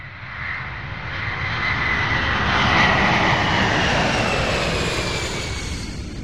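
Airplane taking off: a broad, roaring engine rumble with a hissing upper layer swells steadily to a peak midway, then eases slightly, with no voices.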